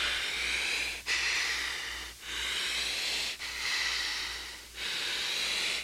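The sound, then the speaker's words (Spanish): Deep breathing from a patient told by a doctor to breathe deeply while something is placed over the face: a steady, airy hiss repeating in a series of long, even breaths with only brief dips between them. “Respira profundo, hijo.”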